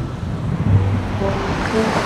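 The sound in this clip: Ocean surf breaking at a beach where people are about to paddle out on boards, heard as a continuous, steady roar of washing water without distinct separate crashes.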